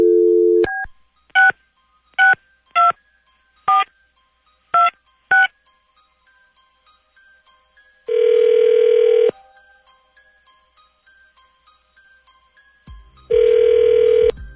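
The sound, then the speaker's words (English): Telephone keypad dialing: a brief low tone opens, then seven short, evenly pitched keypad beeps in an uneven rhythm, followed by two longer steady tones separated by a pause. “Well, let's find out. Dialing at random.”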